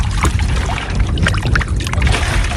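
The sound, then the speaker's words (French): Water sloshes, splashes and trickles as sampling equipment is rinsed with lake water. The churning, bubbly noise is loud and continuous, with brief gurgles and drips on top and no voices. “Pendant qu'il se stabilise, je vais rincer tout mon matériel avec l'eau du plan d'eau.”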